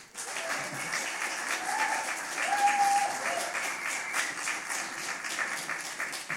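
Audience applause welcomes an author to read from her first book at a library reading event. Dense, steady clapping holds at an even level for the whole stretch.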